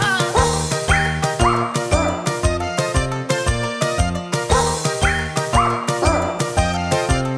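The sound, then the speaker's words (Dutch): A poodle barks in a rhythmic song. Short, pitched barks repeat to the beat over harmonic music and keep a steady pulse throughout. “Er kwam ook nog een poedel bij. Die blafte toen de altpartij.”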